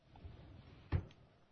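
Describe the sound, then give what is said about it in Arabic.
A key turns in a lock and a door opens: a single short, muffled clunk near the middle, faint against low background noise. “بنزيت المفتاح، هنحاول نفتح.”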